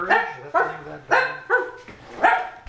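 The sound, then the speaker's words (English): A local dog barks in several loud, evenly spaced bursts, each a bright, slightly whiny, mid-pitched yelp, with short silences between them and no talk. “And we have the local dog,”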